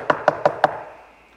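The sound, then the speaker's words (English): Four quick, evenly spaced knocks, sharp and loud, with a short ringing tail fading after the last one. “Thirdly, knocking.”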